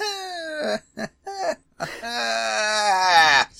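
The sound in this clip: Children whining while being hurried to get ready for school in the first week of term: high, drawn-out wailing voices in a few short whimpering bursts, then one long, sustained whine before it cuts off.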